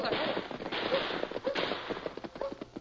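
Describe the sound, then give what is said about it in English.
Gunshots crack in a gunfight, many sharp, fairly faint reports in rapid, irregular succession. “Golly, what's all the shooting for? I don't know, Dan. We seem to have run into a gunfight.”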